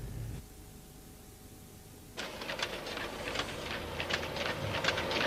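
A battery production machine stacks positive and negative lead-acid battery plates with thin separator sheets. A quiet hum gives way to a steady mechanical clatter with many rapid clicks and rattles that continues to the end, with no talking.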